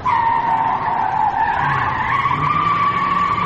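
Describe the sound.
Tires squeal as a car is driven fast and skids, a loud, sustained tonal screech that wavers slightly in pitch throughout, with a low engine rumble underneath.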